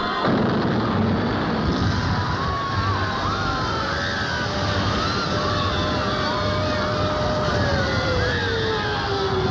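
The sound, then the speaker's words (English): Carpet bombing explosions merge into a dense, unbroken roar of blasts and heavy rumbling that stays loud throughout, with faint wavering tones drifting above the noise. “Secretary of Defense Cruz ordered massive carpet bombings to quell the problems in the Middle East.”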